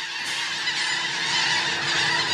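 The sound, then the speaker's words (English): A flock of birds honks like geese in a dense, continuous wash of overlapping calls. No single call stands out, and the loudness stays steady throughout. “I want you to picture a sky filled with birds.”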